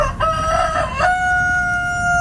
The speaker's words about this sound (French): C'est un coq, absolument. Il s'agit bien d'un coq.